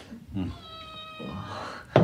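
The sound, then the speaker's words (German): A small cat gives one drawn-out, high-pitched meow over soft low background sounds, followed by a brief sharp noise at the end. “Süße kleine Katze.”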